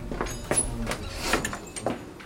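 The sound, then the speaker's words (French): A door is shut in a village café, giving a few short knocks and rattles over a quiet, steady background. “Fermez cette porte, mon père.”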